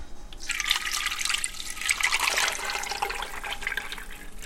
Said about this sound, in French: de l'huile d'olive bio que je vais verser dans la, dans la marmite